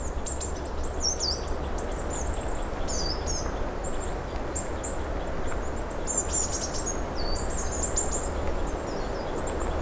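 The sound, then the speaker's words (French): Birds sing in a forest along a trail: many short, high chirps and trills scattered across a steady, loud bed of background noise, with no voices. “Et les oiseaux et le bruit de fond enchantent notre carte postale sonore.”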